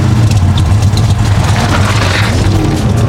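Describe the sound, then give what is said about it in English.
A motorcycle engine rumbles steadily at idle after its choke is pulled and key turned, giving a loud, deep, even throb that holds without pause throughout. “He reached to the right side of the bike, pulled the choke lever toward him, and turned the key.”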